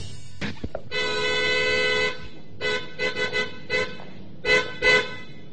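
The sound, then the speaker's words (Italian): A car horn goes off when an elbow leans on its very sensitive button: one long steady blast, then a quick series of short, uneven toots, with a few faint clicks just before. “Lei ha clacsonato. Tu ha clacsonato? Io no. Ah, sì, ho appoggiato appena il gomito. È un clacson sensibilissimo.”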